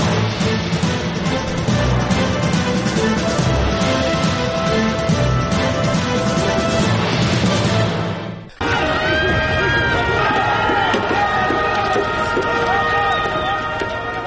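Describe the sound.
Crowd noise from anti-American protests abroad over a film: a loud, dense roar of many voices and shouting, broken by an abrupt cut partway through into another stretch of the crowd.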